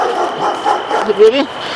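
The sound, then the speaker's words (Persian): Dogs bark and yip a few times in short bursts, with a man's voice talking over and around them. “آخه ترس سگای بلگرد کسی جرات میکنه اینجا نگهبانی بده؟ چی سگ؟”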